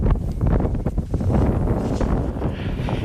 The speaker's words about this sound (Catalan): I aquest és el so del vent de Svalbard.